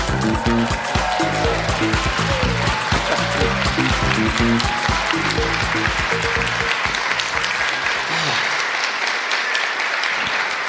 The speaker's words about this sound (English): Good whoops. That's nice, isn't it? Good whoops.